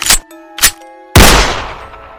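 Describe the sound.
A pistol gunshot sound effect: two short, ringing knocks come first, then one loud, sharp blast that fades out in a long, rough tail.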